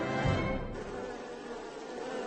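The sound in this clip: Swarming honeybees produce a steady, faint buzzing hum that holds without pause through the short stretch, with no voices present.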